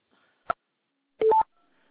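Telephone keypad tones pressed while transferring a call: one short beep, a brief pause, then a longer tone, alone over near silence.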